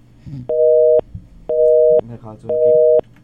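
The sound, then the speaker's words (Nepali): A telephone busy signal on a dropped call sounds as three evenly spaced, loud, level-pitched tones, each about half a second long, with faint murmuring voice sounds in the gaps between them. “Call मिल नहीं रही है उनकी, शायद drop करती जा रही है, उनके कोई नेटवर्क में प्रॉब्लम होगी।”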